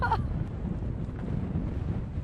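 Wind blowing on an island coast: a gusty, low rumbling roar buffets the microphone, steady and fairly faint throughout, with a brief louder gust at the very start.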